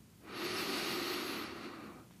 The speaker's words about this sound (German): Dann atme etwas tiefer durch deine Nase ein